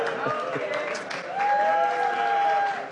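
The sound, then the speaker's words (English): An angry crowd makes a continuous roar of mixed shouting voices, and a shrill held tone rises out of the noise through the middle of the stretch. “here it is. Angry crowd.”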